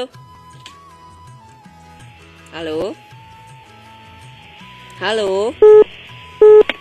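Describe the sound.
Two loud, steady keypad beeps sound near the end as a telephone dials a mobile number. Brief warbling sounds come before them, over a faint continuous tone.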